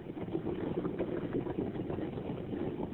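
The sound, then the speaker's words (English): Hot geysers in Yellowstone bubble and boil, a steady churning gurgle with dense low rumbling texture that runs on continuously without pauses. “That's the sound of those bubbling geysers.”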